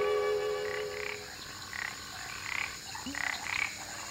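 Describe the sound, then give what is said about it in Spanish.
Frogs and insects call at night in the bush: several repeated croaking and trilling calls rise above a steady, faint droning chorus throughout. “Al caer la noche, el monte se llena con el sonido de los insectos y los anfibios.”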